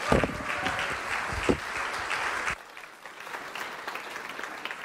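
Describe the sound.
Applause from a morning church audience welcoming a guest speaker, the senior minister: dense, steady clapping that drops to a lower level about halfway through and continues more softly to the end.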